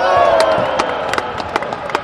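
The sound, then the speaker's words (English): Several hundred fans cheer from a roped-off area of the stands at a basketball practice during March Madness, a loud sustained roar that gives way to scattered sharp claps. “Several hundred people sat in a roped-off area of the stands. They found some baskets the players made, even at practice, worth cheering.”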